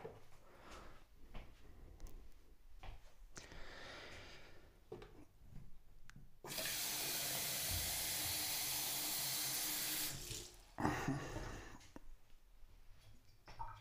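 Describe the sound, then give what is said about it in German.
Water rushes steadily for about four seconds while a coffee machine is refilled, a loud, even hiss framed by lighter clattering and handling noises of the machine's parts before and after. “Gut, dann setzen wir das Teil wieder ein und den, die Fläche für die Tasse wieder drauf machen. Ja, und jetzt haben wir es wieder. Gut, dann füllen wir mal die Maschine wieder auf.”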